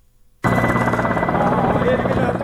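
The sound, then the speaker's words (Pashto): A foreign forces' military combat helicopter in flight, its rotor drone cutting in abruptly out of near silence, then holding a loud, steady, throbbing roar. “د بهرنیو ځواکونو د جنګي هلیکوپټرو تر څنګ ځینې نورې الوتکې هم په هوا کې ګرځي چې موږ یې نه وینو.”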